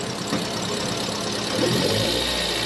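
An engine is revved, giving a steady mid-pitched motor drone with a knocking vibration that grows a little louder past the midpoint. No voices are heard.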